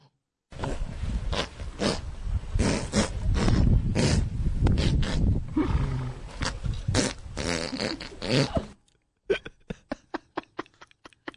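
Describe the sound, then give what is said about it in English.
A horse farts while rolling around in the dirt: a long, loud, sputtering blast of rapid flutters, then a short gap and a string of many sharp little pops. “This is a video from 2002. It's of a horse rolling around in the dirt and doing something fun.”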